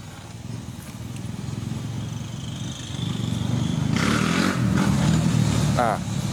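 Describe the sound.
A motorcycle doing a wheelie, its engine a steady low rumble that swells and grows louder about halfway through, then holds before easing slightly at the end.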